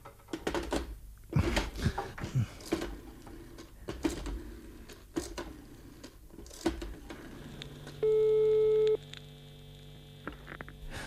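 A telephone busy signal after a dropped call. Scattered clicks and crackles on the line come first, then a single steady beep holds for about one second over a low hum before more faint clicks.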